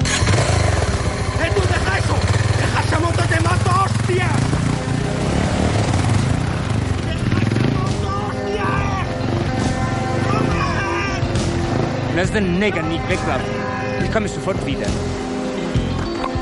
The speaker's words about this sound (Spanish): Rafa corre a una de las motos, la arranca y se la lleva.